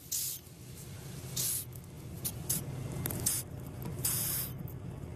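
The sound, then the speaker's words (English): Madagascar hissing cockroach hissing in several short, breathy bursts, like an aerosol spray, spaced unevenly over a low, steady background. “Like an aerosol, but it's a cockroach hissing ominously at you.”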